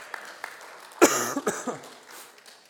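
Harsh coughing from a person with a chest cold, a couple of strong coughs in quick succession followed by a softer one, with faint clicks just before.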